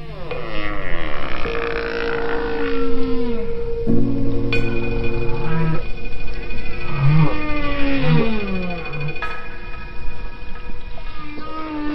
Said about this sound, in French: Prouvant par là que les baleines s'écoutent, s'influencent et prêtent une oreille attentive aux mélodies de leurs voisines baleines à bosse, si éloignées soient-elles.